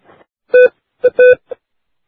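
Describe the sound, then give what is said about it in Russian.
Touch-tone keypad beeps as a telephone is dialed to call the police: a few short tones of uneven length and spacing, clear and alone, with no voices. “сейчас разозлюсь и в милицию позвоню. Все, сейчас помогем. В милицию позвоню.”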